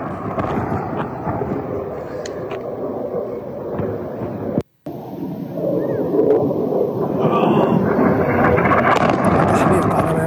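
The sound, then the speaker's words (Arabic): Israeli warplanes and drones over Sohmor, eastern Lebanon: a continuous, heavy low roar and rumble that cuts out briefly midway, then returns somewhat louder and more sustained. “الطيران الحربي الإسرائيلي، طيران والمسيرات ربما الإسرائيلية.”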